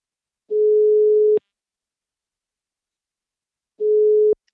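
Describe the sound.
Telephone ringback tone before a call connects: two steady, mid-pitched beeps about a second long, separated by a long silence.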